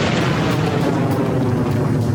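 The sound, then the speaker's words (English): Explosion sound effect for a blast in a spaceship docking bay: a loud, dense, rumbling roar that fills the whole clip without pause, with no distinct single bang. “Give me explosion sound effects now.”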